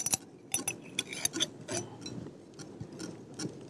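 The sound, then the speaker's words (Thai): Aloe vera gel is stirred until smooth, a utensil clicking and tapping irregularly against the container in a run of sharp, light knocks with quiet gaps between them. “อันนี้เป็นวุ้นหางจระเข้แล้วนะครับ ลักษณะเหมือนวุ้นว่านหางจระเข้แล้วนะคะ แล้วใส่ แล้วก็คนค่ะจนเนื้อเจลของเรานะคะเนียนละเอียดนะคะ”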